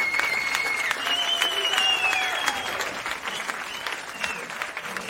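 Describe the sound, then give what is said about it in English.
A live studio audience gives sustained applause: dense, steady clapping with a whistle ringing over it early on, then easing slightly toward the end. “That live studio audience follows you guys around everywhere.”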